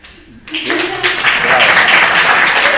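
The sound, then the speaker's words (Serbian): Audience applause thanking a lecturer after his talk: a brief murmur gives way to a sudden burst of many clapping hands that swells and then holds steady and fairly loud. “Zahvaljujemo se svi ovako aplauzom. Slobodan Popović, vašem kolegi, drugaru, na jednom lepom predavanju i obuhvatnom.”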